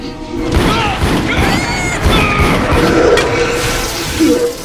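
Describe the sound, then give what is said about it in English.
Fireball sound effect: loud booming blasts and crashing impacts in rapid succession, continuous and heavy across several seconds. “Rick runs as Han shoots another fireball.”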